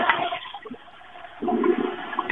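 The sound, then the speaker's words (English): Toilet flushing, a rushing, gurgling wash of water that runs for about two seconds and swells again toward the end. “Is that a toilet flush?”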